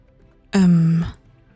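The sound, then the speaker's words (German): A short voiced yawn, lasting about half a second, gives a steady low hum-like tone that dips slightly at its end, heard alone against near silence. “Entschuldigung, ich muss gerade gähnen.”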